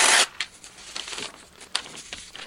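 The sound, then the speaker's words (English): Paper pieces ripped up by hand: one loud rip at the start, then several shorter tearing and crinkling bursts that come and go. “I'm not even giving you the pieces. I'm going to rip all these up.”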